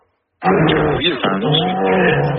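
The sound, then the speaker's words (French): A young child imitates a bear's roar with a loud, gravelly voiced growl that starts abruptly and holds for about two seconds, its pitch wavering as it goes. “si t'étais un animal, tu veux être un ours.”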